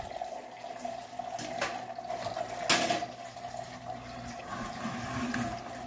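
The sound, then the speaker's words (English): Liquid drains from a cup through an attached tube in a steady, faint trickle and wash of water with a few brief splashy surges and no voices. “This is the tube that's hooked to the cup that's draining.”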